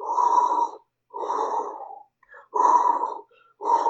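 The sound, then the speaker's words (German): Soft whooshing, breath-like synthetic tones from an iPhone app that turns breathing into sound while the phone rests on the navel: four broad swells in a slow, even rhythm, the last cut off. “dann kann ich das iPhone bei mir auf den Bauchnabel legen und ich bekomme dann ein akustisches Signal, wie ich atme”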